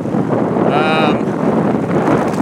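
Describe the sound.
Wind buffets a microphone while someone rides outdoors up a hill: a loud, steady low roar fills the whole stretch, with a brief higher whistling tone near the middle.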